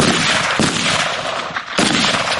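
Gunshots crack during civilians' shooting practice in basic weapons training, a loud, dense burst of firing noise with a few sharp reports standing out from the continuous racket.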